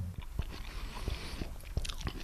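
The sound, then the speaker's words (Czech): Soft, moist bites and chewing into a warm baked apple topped with eggnog, with baked nuts and cinnamon, heard as a few short crunchy bursts over a low steady background. “Jabko je teplé, je na zkus, ale tak, že se hezky rozpadá, když se o něj člověk opře těmi zuby.”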